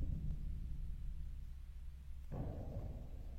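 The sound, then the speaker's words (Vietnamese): Thunder from a storm that is just starting outside a small shrine: a low, continuous rumble that surges suddenly louder near the end. “Ở bên ngoài trời đã bắt đầu nổi sấm.”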